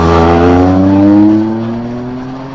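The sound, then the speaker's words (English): A green Porsche sports car accelerates hard up a hill toward a corner, its strong engine note climbing steadily in pitch. The loud roar eases somewhat past the midpoint. “Oh, get on the gas, it's a green Porsche. This is going to be a good corner. Strong sounding car.”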